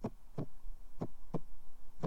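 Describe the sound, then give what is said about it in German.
A pounding heartbeat gives dull, low, steady thumps falling in paired beats, about five thumps in all. It is fairly faint and heard alone, with no voices. “Er spürte seinen eigenen Herzschlag so heftig, als würde er jeden Moment seinen Brustkorb sprengen.”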